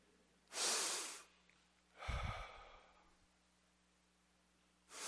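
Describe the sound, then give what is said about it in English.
A person takes a few loud, breathy breaths, separated by near silence, each a rushing burst of air lasting under a second or so, with a heavier, lower gust in the middle. “That's grace. What do I mean? My next breath is a gift of God.”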